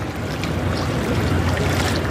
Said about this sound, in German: muss ich mich auch auf der letzten Stufe der Rheintreppe im Duisburg-Ruhrort strecken, um wenigstens ein bisschen Wasserplätschern einzufangen